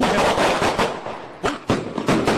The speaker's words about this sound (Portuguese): Quando explode esse foguete, tomamos um cagaço aqui